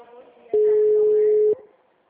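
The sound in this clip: A telephone call going unanswered: a single steady, mid-pitched ringing tone lasting about one second over faint background noise.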